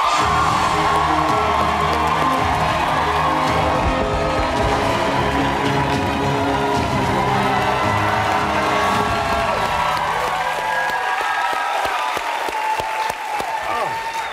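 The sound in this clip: A studio audience at a Comedy Central show cheers, whoops and applauds a guest's entrance. The sound is loud and sustained, with dense clapping and shouts throughout before easing slightly near the end.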